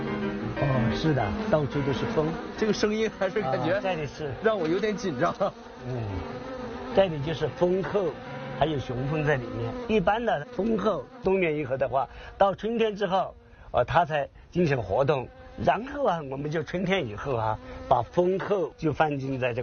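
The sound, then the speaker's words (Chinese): Dense bee buzzing fills a bee-rearing greenhouse where the insects swarm thickly, a continuous droning hum that persists under people talking throughout. “密密麻麻的全都是蜂。”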